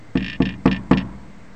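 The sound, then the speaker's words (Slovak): Knocking on a door: four evenly spaced, solid knocks in a quick, steady rhythm, then quiet. “Naraz sa zobudil na klopanie na dvere.”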